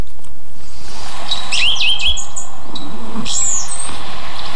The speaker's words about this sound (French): Un mésange bleu. Une très commune aussi, mais très discrète.